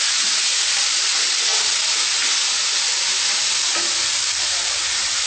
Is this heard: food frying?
yes